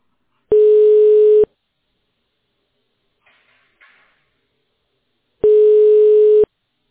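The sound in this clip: Telephone line tone while waiting for a connection: a steady mid-pitched tone lasting about a second, a long near-silent pause with faint rustling, then the same tone again.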